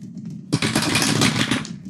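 Two twenty-sided dice tumble through a dice tower in a sudden, loud clattering rattle of rapid hard clicks that lasts just over a second and then stops abruptly.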